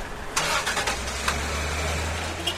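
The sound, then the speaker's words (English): Vehicle engines as port workers drive toward the docks: a steady low engine rumble throughout, with a few sharp clanks and knocks on top. “And watch port workers drive their vehicles towards the docks.”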